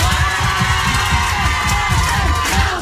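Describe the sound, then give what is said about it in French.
Studio audience of a French radio show cheering and applauding in a loud, continuous roar of voices and clapping, thick with low rumbling bursts and steady from start to end. “c'est toi qui vas dire « Allez, public !» et le public va applaudir.”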